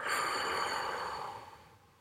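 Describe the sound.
A single long, soft breath, part of slow deep breathing during a relaxation exercise, airy and hissing. It fades out steadily over about two seconds with no talking.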